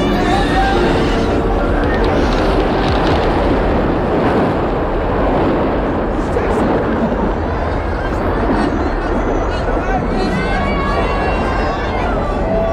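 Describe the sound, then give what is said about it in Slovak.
Ocean waves crashing around a boat that has run aground while heading for shore: a continuous, loud roar of surf and wind, with voices underneath. “Narazili sme! Ale plávame stále k brehu! Neutopíme sa! Neboj sa, Jenkins, neutopíme! Pozor! Za nami veľká vlna!”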